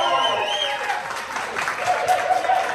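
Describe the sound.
Applause from a crowd welcoming a new Bulls goaltender in Pueblo, a continuous wash of clapping at steady strength with voices cheering through it.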